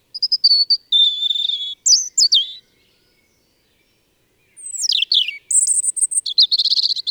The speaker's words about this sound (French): Vous avez trouvé ? Mais oui, bien sûr, c'était le chant du rouge-gorge.